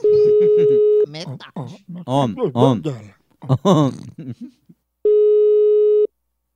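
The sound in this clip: A telephone line tone on a lawyer's call to a homeowner sounds as two long, even beeps with people talking between them.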